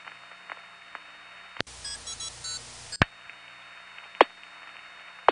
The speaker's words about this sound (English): Damn, that Mount Kisco tone applier is loud.